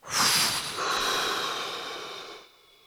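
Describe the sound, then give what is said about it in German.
Breathing in and then actively exhaling during a breathing exercise: a sharp airy breath at the start, then a longer steady rush of air that gradually weakens and trails off. “Dann den Atem kommen lassen und wieder aktiv aus.”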